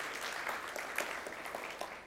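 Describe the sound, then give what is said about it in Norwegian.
Applause from an audience during a Sunday morning charismatic church service: a steady, dense patter of many hands clapping at an even, fairly faint level, with no talk over it. “Skal vi si et skikkelig amen og gi en applaus til Jesus også.”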